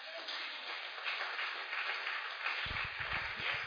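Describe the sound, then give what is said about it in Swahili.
Congregation clapping for the Lord at a ladies' church seminar, a dense, steady wash of many hands from start to finish, with low thuds joining in near the end. “that is the desire of god tupigie bwana makofi”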